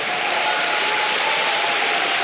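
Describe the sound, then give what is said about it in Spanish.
Congregation clapping in praise during a church service, a dense, steady wash of hands that holds at an even level for the whole stretch with no distinct pauses. “Vamos, dele palmas al Señor por eso.”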